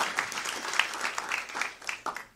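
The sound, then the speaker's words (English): Scattered applause from a church audience greeting holiday visitors from Canada, with distinct individual claps at an uneven rhythm that thins out toward the end. “How about we give them a round of applause?”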